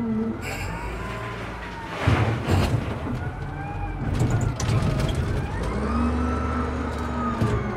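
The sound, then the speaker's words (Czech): Heavy machinery rumbles at a stone quarry as a yellow truck pulls in and crushed stone is loaded, with a steady low engine drone, wavering engine whines and rough bursts of pouring rock. “Zvedá se ležíce, přijíždí žlutý náklaďák a už se to sype.”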